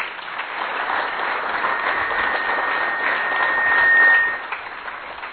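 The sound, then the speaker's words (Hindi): Applause from an audience at a formal Indian event honouring guests. The steady wash of clapping swells briefly near the end, then eases off. “तालियां जरूर बजाइएगा, तालियां बजाइएगा।”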